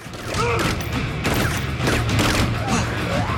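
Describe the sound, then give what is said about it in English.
Gunfire aimed at zombies by a man hanging from the harness of a spinning amusement-park ride. Rapid shots blur into a dense, continuous clatter of blasts and crashes that lasts the whole clip. “With his free hand, he fires at the zombies while the ride spins him round in a wide circle.”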